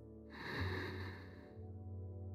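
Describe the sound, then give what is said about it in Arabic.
A deep inhale during a breathing exercise for energy: one drawn, breathy intake that swells and fades, fairly soft, over a sustained tonal backdrop. “خلينا نبدأ بالدورة الأولى شهيق”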